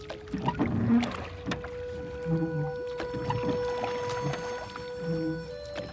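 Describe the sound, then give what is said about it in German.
An oar moving a rowing boat through water at night: a few soft, gurgling strokes spaced apart, faint over a steady low tonal drone, with no talk. “bewegte den Riemen so geschickt, dass das Boot fast geräuschlos dahineilte”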